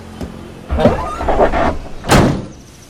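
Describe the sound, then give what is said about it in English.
The battered rear door of a van being shut after its metal ramp is slid into place: a light tick, a longer grinding, rolling slide, then one solid slam. “She lifts the van's metal ramp, slides it into place, and shuts the battered rear door.”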